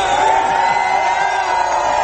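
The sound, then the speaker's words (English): A crowd cheers and whoops in welcome at a gathering, a loud, continuous wash of many voices shouting together without a pause. “Cheers for Sunshine Patriots here.”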